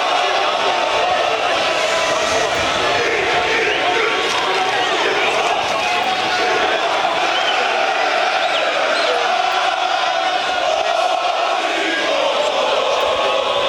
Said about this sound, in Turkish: Futbolcular yolculuk boyunca taraftarın oluşturduğu kortejle karşılıklı tezahüratlar yaptı.